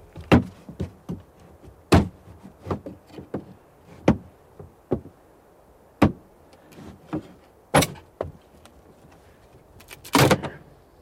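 A coffin, just dug up from a grave and hoisted out, is opened with a series of sharp, irregular wooden knocks and clacks. Some are loud and some faint, scattered across a quiet background.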